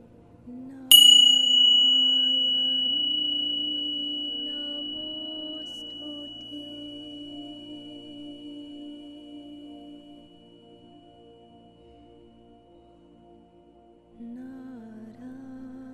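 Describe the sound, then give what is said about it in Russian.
A small bell is struck once during a guided relaxation session, giving a clear, high, pure ring that decays slowly over many seconds above a soft, steady low hum, with no talk. “Услышьте звук колокольчика.”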